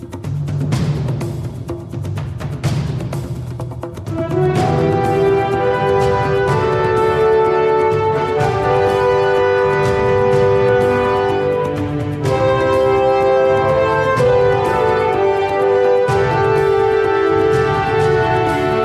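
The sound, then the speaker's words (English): A high-resolution symphonic score from a 32-bit era video game, the soaring, majestic character theme of the hero, opens softer and low, then swells into a full, sustained orchestral passage with rich harmonies, loud and continuous to the end. “but now we're in the 32-bit era, and high-resolution sound is not only possible, but almost a requirement of many video games, and scores sound like this.”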